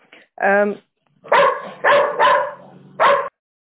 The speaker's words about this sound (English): I ignore that dog. He's doing its job also.